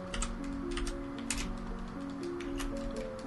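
Quiet clatter of a computer keyboard as a search is typed into YouTube: many rapid key clicks in an uneven rhythm over a faint steady hum.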